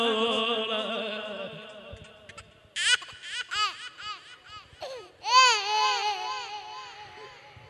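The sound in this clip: An infant cries in high, wavering wails, a long sustained cry followed by a few shorter broken bursts and another long loud wail.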